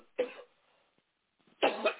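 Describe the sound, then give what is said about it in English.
Two coughs from a person on a telephone line, separated by a pause: a short burst, then a longer and louder one. The sound is thin and telephone-quality, with no talk. “I had to start coughing and I got overheated.”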